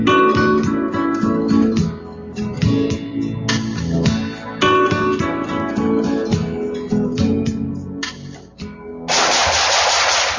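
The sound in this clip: Gunfire in a radio ad for tactical gear: loud, dense shooting in rapid bursts of many shots, ending with a short rush of noise.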